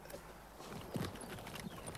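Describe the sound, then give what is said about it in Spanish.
Horse hooves clip-clopping as a horse-drawn cart carries a passenger back to a village. A few soft, irregular hoof knocks sound faintly in an otherwise quiet scene. “Babette vuelve al pueblo en el pescante de una carreta al lado del cochero.”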